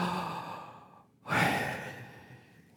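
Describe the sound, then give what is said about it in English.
A long, breathy exhale made while saying a divine name with breath alone and no lip movement. It is soft and airy, follows a brief quiet gap, and slowly fades away. “Now say it without moving your lips. Your breath. You have to breathe.”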